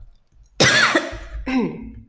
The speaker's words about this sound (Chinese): 抱歉，刚刚被水呛到